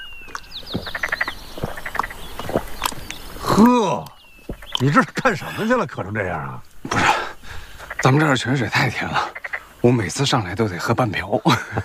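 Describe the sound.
Female toads kept on a mountainside croak in a busy chorus of loud, bouncy, harmonic calls. Many croaks come in quick bursts separated by short pauses.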